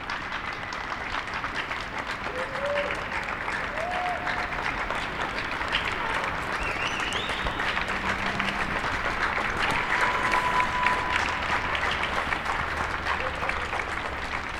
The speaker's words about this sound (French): Ah, ça commence à applaudir.